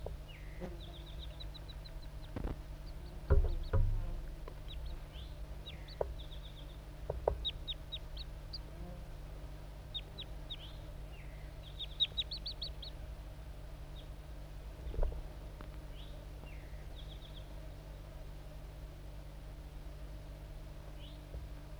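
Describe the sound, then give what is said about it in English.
A male wild crossbill sings, one of a pair still present, in scattered bursts of short, high chip notes and brief twittering phrases, faint over a low steady hum with a few soft thumps. “the pair of wild crossbills is still around. This is the song of the male.”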